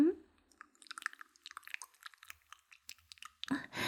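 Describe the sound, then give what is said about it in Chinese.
Wet tongue-licking mouth sounds, many quiet, soft clicks and smacks in a loose, repeating rhythm, with a fuller wet burst near the end. “就这样被我的灵活的舌头一下一下的舔呢，是不是感觉很撩拨呀？”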